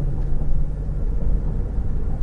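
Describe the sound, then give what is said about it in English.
A V6 car engine gives off a deep, steady rumble, low and even with slight pulsing and no voices over it. “I've got to say that I was surprised that it was only a V6. It's got a nice rumble without ever being too intrusive. I thought it was a V8,”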